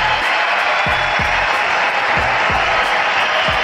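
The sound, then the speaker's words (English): Baseball crowd at U.S. Cellular Field cheering and applauding a pitcher's strikeout record, a continuous, loud roar of voices and clapping that stays steady throughout. “Here's what they sound like at U.S. Cellular, saluting one Chris Sale.”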